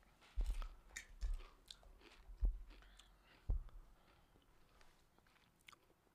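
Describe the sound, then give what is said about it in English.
Loud crunching and biting of rotisserie-flavoured Pringles crisps: a few sharp, heavy crunches with softer chewing between them, and no talking. “Tastes like barbecue chips, huh? Is it trash?”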